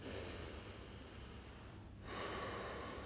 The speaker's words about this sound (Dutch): Adem twee keer in via je neus, in en uit.